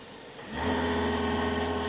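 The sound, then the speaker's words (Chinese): A hybrid car's engine starts and runs while the car sits in park with the accelerator pressed to generate charge. The low hum comes in about half a second in, then holds a steady, even drone to the end. “你要绑安全带，挂了 P 档，你重脚油门，等一下，你就会听到 engine 的声音，它的声音就是这样子。”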